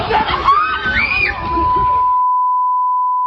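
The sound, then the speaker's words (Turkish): Children scream and shout over one another during a fight in a park, a loud, chaotic jumble of high voices for about two seconds, then a long steady beep tone that runs to the end. “Çığlıkların birbirine karıştığı kavga polis ve bekçilerin araya girmesiyle güçlükle sakinleştirildi.”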